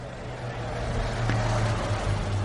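A steady low rumble inside a car parked in front of the Bernabéu stadium. The drone holds even throughout, with no distinct events standing out.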